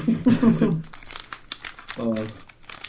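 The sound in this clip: Crinkling and tearing of a booster card pack wrapper being ripped open, with bursts of crisp rustling between stretches of talking.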